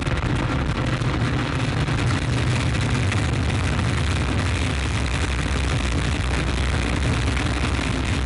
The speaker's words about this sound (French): Top, allumage Vulcain. Allumage confirmé. Top, allumage EAP, décollage.